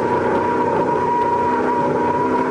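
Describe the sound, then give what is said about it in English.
A car engine roars loudly and steadily as the driver downshifts from fourth to third into a decreasing-radius corner. The dense, droning engine tone continues without pause, with no talking. “Come down 4th, 3rd, and into another decreasing radius.”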